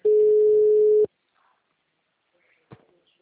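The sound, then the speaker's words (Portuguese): A telephone line tone sounds during an incoming call: a single steady, loud, mid-pitched tone lasting about a second, followed by near silence and a brief faint click. “Ó, estão te ligando aí.”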